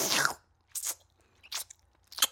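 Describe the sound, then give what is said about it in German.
A voice imitates chewing and slurping spaghetti with four wet, breathy bursts: a longer one at the start, then three short ones spaced apart. “dass man mir dann noch dabei zuhören möchte, wie ich kaue und diese Spaghetti so in mich so rein so”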